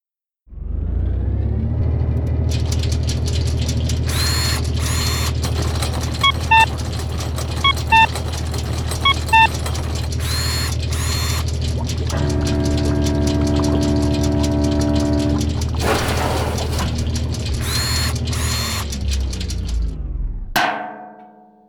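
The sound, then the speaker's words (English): Mechanical grinding drone from a random number generator that jams. A steady, low, engine-like hum runs for about twenty seconds, broken by a few short high beeps and a sustained whine midway, then stops abruptly. “So let's run the random number generator.”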